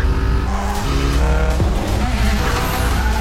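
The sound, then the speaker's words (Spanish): Race cars roar around a difficult track, engines droning loudly and steadily while tires squeal briefly through the din. “Esto es una de las pistas más complicadas que yo he visto. ¿Cuán legal es esta carrera?”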